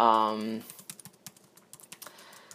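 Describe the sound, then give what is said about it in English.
Typing on a computer keyboard: many quick, light key clicks in an uneven rhythm that follow the end of a spoken voice. “So if you hear some clickety click click click, guess what? I've got the computer in front of me”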